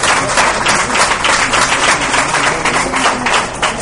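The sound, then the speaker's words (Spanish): Loud, steady audience applause at a live recording held inside a bookstore, a dense continuous wash of many hands clapping that holds an even level throughout with no talk over it. “Llévate este aplauso de todos los presentes.”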